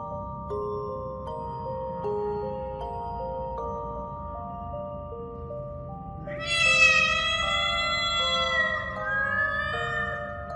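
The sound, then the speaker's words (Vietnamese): Several cats meowing in a spooky night setting: a long, drawn-out, wavering cry that rises in the latter half and tapers slightly, layered over steady, low sustained tones. “Tiếng mèo kêu làm cho Hương giật mình. Nghe kỹ lại thì không phải chỉ một con mèo,”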